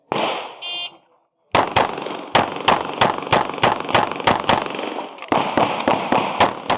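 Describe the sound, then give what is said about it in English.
A start beep at a practical shooting competition stage, then after a short pause many sharp, loud gunshots fired in quick, slightly irregular succession. “you can hear the RO give me the standby and then the beep, and the first shot is after drawing to this target and it's under a second”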